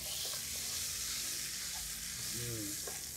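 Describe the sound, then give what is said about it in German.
About 40 grams of butter melts and sizzles in a frying pan holding pan drippings from beef fillet, a steady, soft crackling hiss that continues evenly throughout. “Wir haben hier Butter. Die lassen wir schmelzen. Das sollte schnell gehen.”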